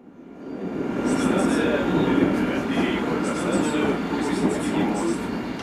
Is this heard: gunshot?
no